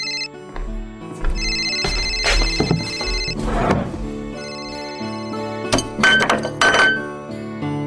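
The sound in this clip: Phone ringtone signalling an incoming call at home after a meal, playing a loud, steady melodic tune of sustained notes with a few sharp clinks mixed in. No one talks.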